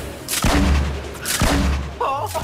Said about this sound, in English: That's a clip giving an idea of the thrills of Fortnite, one of the most popular video games right now.